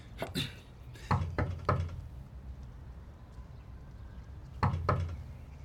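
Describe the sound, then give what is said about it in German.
Knocking on a door: sharp, loud knocks in three short bursts separated by pauses over a low, steady background hum, with no one talking. “Ich klopfe jetzt.”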